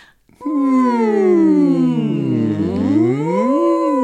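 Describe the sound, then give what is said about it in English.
A single voice hums a sustained NG sound as a vocal warm-up: one continuous, warm tone that holds steady, dips lower in pitch, then climbs back up. “Then we move to an NG sound.”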